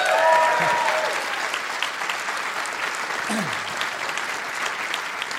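An audience applauds a guest being brought out: steady, even clapping from many hands that is loudest at the start, then holds at a constant level throughout.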